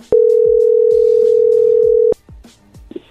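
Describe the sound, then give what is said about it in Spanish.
Telephone dial tone on a line being dialed again: one steady, unbroken hum lasting about two seconds that cuts off sharply, followed by faint clicks and low line noise, with no talk. “A ver, ahí se está marcando de nuevo.”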